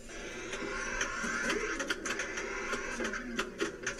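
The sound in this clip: A 1980 pinball machine is being played, giving a faint mechanical clatter of irregular clicks and knocks over a low, steady electrical hum.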